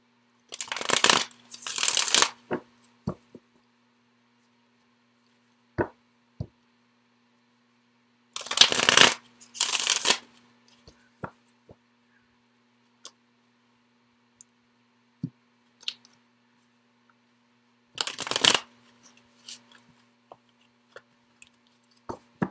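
Tarot cards being shuffled, three separate bursts of rapid riffling flutter separated by long quiet gaps, with scattered single taps and clicks of cards in between.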